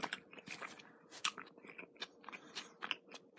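Someone chews sweet-savory stewed liver bought from a convenience store, making many quiet, irregular wet bites and mouth clicks with no talking.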